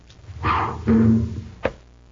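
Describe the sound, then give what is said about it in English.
A toy rocket ship, fired from a gun-like launcher, strikes a book held up as a target, giving one sharp, hollow thunk near the end after some quieter muffled handling sounds. “Now, I'm going to fire the rocket at that book you're holding.”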